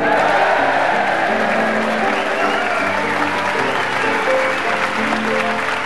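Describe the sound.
Applause from a studio audience welcoming the scorer on a team comedy panel game in Brighton: dense, steady clapping that holds at an even level for the whole stretch.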